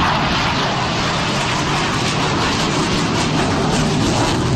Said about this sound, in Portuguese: Esse é o som de um dos caças nesse evento aéreo em São Paulo, na zona norte, ali na Praça Campo de Bagatelle.